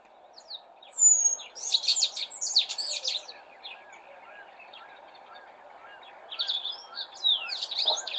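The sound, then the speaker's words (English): Warbled song of a small arid-country bird, played from a recording: two bursts of rapid, high, twittering notes separated by a quieter stretch, over a faint steady low hum. “They've got like a very warbled call, and then they're known also to sometimes mimic the violet-eared waxbill. So listen for yourself. I'm going to play this call now.”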